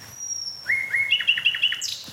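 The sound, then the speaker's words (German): Nightingale song just after midnight on 1 May: a high, thin whistled note, then a rising phrase and a quick run of repeated bright chirping notes, clear and alone. “Danke, liebe Nachtigall.”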